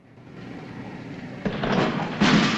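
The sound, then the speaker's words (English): The lid of an outer casing is put back and a locker door is shut: two short knocking thuds, the second louder, over a low continuous background. “He replaces the lid of the outer casing, then shuts the locker door.”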